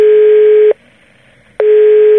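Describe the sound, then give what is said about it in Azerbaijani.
Electronic call tone from an unanswered mobile phone call: a steady mid-pitched tone sounds, stops for just under a second of near-silence, then returns, giving two long, even beeps. “Müqayisə adlı iş icraçısının mobil telefonuna gün ərzində dəfələrlə zəng etsək də, o zənglərimizə cavab vermədi.”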